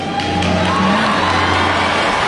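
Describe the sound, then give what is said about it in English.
Crowd cheering from an audience at the University of Central Florida, a loud, dense and steady wash of noise lasting the whole moment without a break. “And then the applause, insinuating that that was a better time, according to the audience there.”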